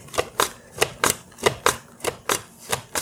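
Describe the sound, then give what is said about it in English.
A potato is sliced into eighth-inch slices on a mandolin slicer: a steady run of about ten crisp swishing strokes in an even rhythm, moderately quiet with no talking. “evenly sliced, eighth-inch thick slices that pop out the bottom. And I've already done about half a potato, so I'm just going to continue slicing.”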